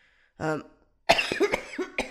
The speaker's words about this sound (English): I just ruined this whole episode with my coughing and everything, man.